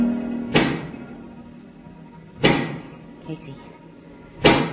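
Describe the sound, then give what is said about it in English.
Knocking of a giant pick, three heavy, sharp impacts spaced roughly two seconds apart, each with a brief ringing decay, plus a fainter knock between the last two over a low background murmur. “do you hear that knocking? I sure do. That is the sound of a giant pick.”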